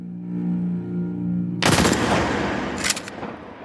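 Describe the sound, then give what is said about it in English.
A firing-squad volley, reconstructed for a military execution for desertion, cracks out suddenly after a low sustained tone, a loud dense burst of gunshots followed moments later by a second, shorter burst. “A reconstruction of the firing squad.”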